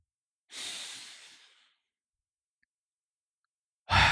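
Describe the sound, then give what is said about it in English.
A single breath in during guided meditation, an airy hiss that swells and then fades over about a second, heard alone. Silence follows, then the sharp onset of another breath at the very end. “Breathe in.”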